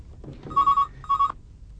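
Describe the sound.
A telephone rings twice, two short, bright trilling bursts separated by a brief gap, with no talk over them.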